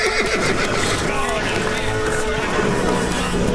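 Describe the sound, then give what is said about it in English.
Horses whinnying as they rear up with hooves raised in a film confrontation. Several loud neighs rise over a busy rumble of movement and hoofbeats. “His back to the water, Stripes watches the horses close in. They all rear up, hooves ready to strike.”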